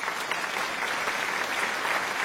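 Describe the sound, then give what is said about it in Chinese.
An audience claps together during a church worship service, dense and steady applause that holds evenly throughout, with no talk over it. “相信的拍手把荣耀归给他。”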